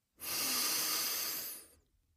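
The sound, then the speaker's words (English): A single deep breath, one long airy rush of about a second and a half that swells quickly, holds steady, then fades, with nothing else heard around it. “Take a deep breath.”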